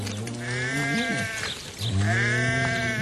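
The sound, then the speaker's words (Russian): Livestock in a town herd bleat as they are driven along a street on a hot July evening: two long, wavering, sheep-like bleats with rich harmonics, separated by a short pause. “В один жаркий июльский день, под вечер, когда по улице гнали городское стадо, и весь двор наполнился облаками пыли”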